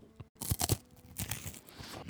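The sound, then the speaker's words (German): Crunchy bites into a brand-new Ahead wafer bar give a few faint, brittle crunching and crackling bursts in quick succession, with short pauses between them. “Ich habe nämlich gerade in die brandneuen Wafer Bars von Ahead gebissen und der Spitzname dieser Wafer Bars ist, Achtung, Bueno Bars.”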